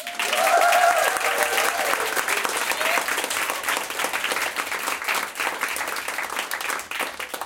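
A live audience at a recorded show cheers and applauds enthusiastically. A whoop rises at the start, then dense, steady clapping follows and eases slightly toward the end.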